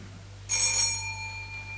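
A telephone bell rings once in an office, a bright metallic burst that sets in suddenly and fades slowly over about a second, with a low steady hum beneath it.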